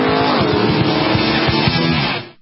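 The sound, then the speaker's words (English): A sports racing car's engine roars at a big sports car race in Sebring: a loud, dense, raspy roar with a rapid pulsing texture that holds steady, then cuts off sharply just before the end. “Sebring, the biggest sports car race of them all”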